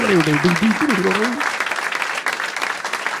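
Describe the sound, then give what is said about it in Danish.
Audience applause and cheering welcome a guest, a pest psychologist, rising under a man's voice at the start and then continuing as dense, steady clapping. “Og giv en kæmpestor hånd til en skadedyrpsykolog. Giv ham en kæmpestor hånd.”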